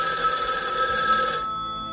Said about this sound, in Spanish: parece que tenemos una llamada